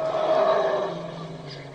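A herd of wild elephants trumpets together in a dense, continuous roar of overlapping calls. The blended trumpeting stays loud and sustained, easing slightly toward the end, with no talking.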